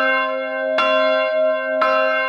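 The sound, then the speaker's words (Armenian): Armenian church bells ring with two loud, resonant strikes about a second apart. A steady ringing hum carries between them, and no voices are heard. “Այսօր հայոց եկեղեցու զանգերը առավոտից ձայնում են աշխարհով մեկ։”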